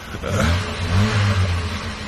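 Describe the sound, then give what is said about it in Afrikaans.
A car engine revs hard, the kind of car said to labour up every hill. A low, throaty drone wavers up and down in pitch and holds loud and steady throughout, with no voices. “hierdie kar van my sluk teen elke bult uit. Toets weer. Stoot daai resolusies.”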